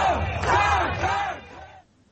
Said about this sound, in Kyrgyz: Силер кел деп чакыра арзамат, мен жетем дегенде чогулгандар кыйкырык сүрөөм менен колдошту.